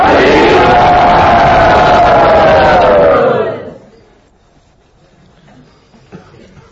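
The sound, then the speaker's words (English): A large crowd at a Hare Krishna gathering loudly shouts Hare Bol together in welcome. The roar of massed voices lasts about three seconds, then drops away to near quiet. “So everyone, let us welcome them from the core of our hearts by loudly saying Hare Bol.”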